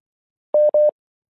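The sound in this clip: Two short, identical electronic beeps from a telephone call that fails to connect, each a steady mid-pitched tone lasting a fraction of a second, separated by a brief gap and followed by silence.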